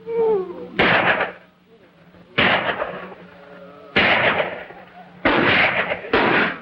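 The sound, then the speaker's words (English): Gunshots fired at night from inside a cabin at cattle rustlers: five loud, sharp blasts spaced a second or more apart, each trailing off in a long ringing decay, with a low hum and faint sounds between them. “Inside a cabin, two people shoot at the rustlers.”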